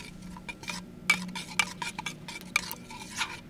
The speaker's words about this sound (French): L'idée, c'est de mélanger le café et l'eau. C'est très simple en fait.